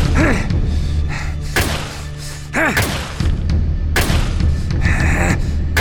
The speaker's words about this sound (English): I take a step toward him, but he moves first. I keep coming, and he keeps firing.